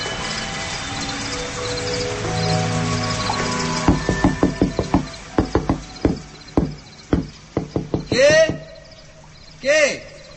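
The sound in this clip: Knocking on a wooden door at night: many sharp, hollow raps in irregular bursts, some quick and clustered, others spaced apart, with no voices during the knocks.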